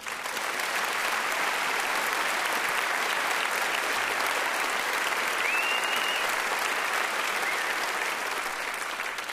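Audience applause greets a performer who is about to play a classical guitar piece: thick, continuous clapping that stays loud and even from start to finish, with no voices above it.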